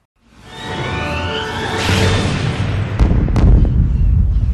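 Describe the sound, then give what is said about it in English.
Mortar rounds whistle down in descending tones, then heavy booming explosions land in a loud, rumbling blast with a couple of sharper impacts. “The mortar rounds fell more often.”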